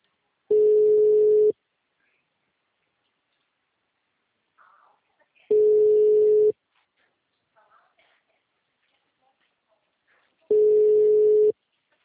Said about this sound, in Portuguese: Tô ligando pra sua cliente, ela não tá atendendo ainda.